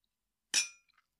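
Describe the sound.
A single bright glass clink rings out as glasses touch in a toast. It strikes sharply and decays over about a quarter second, followed by a couple of faint, brief ticks.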